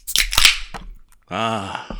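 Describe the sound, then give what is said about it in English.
A beer can from the refrigerator being cracked open, with a sharp burst of hiss and a click, followed by a short voiced sigh. “beer crack. Cheers to you. I almost fucked up and bought all bottles this week. I'm glad I had a couple of cans remaining in my refrigerator.”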